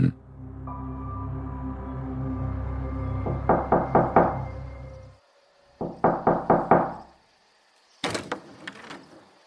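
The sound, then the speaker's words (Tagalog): Knocking on a house door by a group of police: several bursts of quick, hard knocks in rapid runs. The first run plays over a low sustained tone, and the later runs sound alone. “isang grupo ng pulis ang kumatok sa bahay namin”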